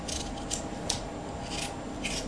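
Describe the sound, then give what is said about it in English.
Scraping of potato skins being peeled, heard as a few short, faint rasping strokes over a low steady background, with no talking. “See, that's the skin. We don't eat the skins. Skins? Yeah, so we peel them off. Potato peels, they're called.”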